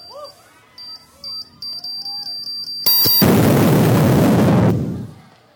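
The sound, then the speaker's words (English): A bomb explosion effect plays after the blue wire is cut. A run of short, high, regular beeps gives way to a sudden loud blast, then a roaring rumble that lasts about two seconds before fading out. “May sumabog.”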